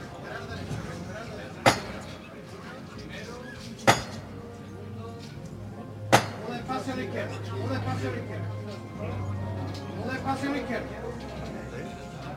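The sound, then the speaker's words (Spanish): A capataz strikes the llamador three times, a sharp metallic knock on the Hermandad del Carmen's Holy Week paso on calle Feria. The knocks are the final call for the costaleros to lift the palio, each one separated by about two seconds of steady background murmur. “Y ahora esa última llamada para incorporarse.”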